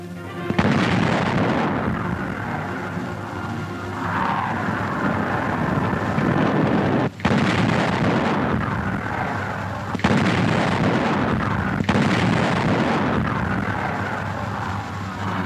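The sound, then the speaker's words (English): Heavy wheeled field gun firing 200-pound shells: a few sharp, deep blasts cut through continuous loud, rumbling roar that fills the whole stretch. “The Nazis have no match for this thunderous weapon. It fires a 200-pound shell and has a range of nearly 14 kilometers.”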